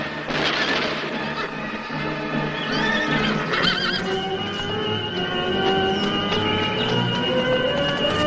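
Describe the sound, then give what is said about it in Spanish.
Horses galloping away as riders flee after gunfire in a 1978 adventure film, rapid hoofbeats running steadily throughout with a high whinny in the middle. “Tras varios disparos se suben a sus caballos y se marchan.”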